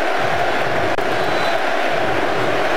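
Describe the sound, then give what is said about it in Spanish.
A football crowd roars in the stadium stands at a United States national team match in the Bay Area, a dense, loud, continuous wash of voices with no break. “Los sonidos en la tribuna, los sonidos del fútbol.”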